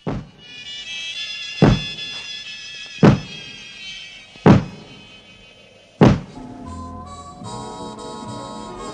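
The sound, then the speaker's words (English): Four heavy, evenly spaced thumps on a door ring out over sustained eerie music tones, each a loud, dull blow followed by a quieter stretch. “Someone's thumping on Dan's door.”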